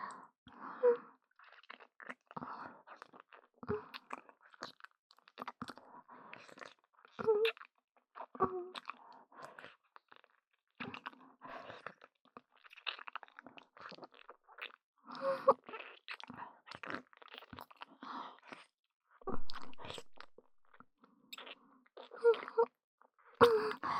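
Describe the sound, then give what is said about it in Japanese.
Wet kissing sounds with tongue, a long run of many soft smacks, slurps and squelches in an uneven rhythm, with breathy vocal sounds mixed in. “やっぱり、キスはいい。舌出して。”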